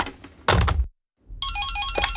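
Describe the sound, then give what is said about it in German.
An electronic telephone rings with a rapid trill that alternates between two pitches. It begins after a couple of dull thumps and a brief silence. “Wer ist am Telefon? Hallo, Alexa?”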